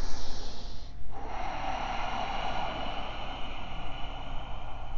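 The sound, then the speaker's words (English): Ujjayi breathing drawn through a narrowed throat during yoga practice makes a steady, rushing, hiss-like breath sound that continues throughout, with a brief shift near the start. No talking is heard. “Access your Ujjayi breath. Narrow the aperture of your throat. Generate texture and heat here.”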